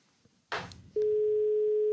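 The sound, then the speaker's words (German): A telephone call to Berlin is placed: a brief burst of noise is followed by one steady, mid-pitched electronic tone lasting about a second, which then cuts off. “wollen wir in Berlin anrufen bei Matthias Niederberger”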